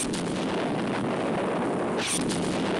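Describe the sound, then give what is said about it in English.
Sci-fi weapon fire and explosions as a UFO shoots at three astronauts on a model set: a dense, continuous rumbling roar with a brighter burst near the end, with no voices. “The UFO is firing at three of our cowering astronauts”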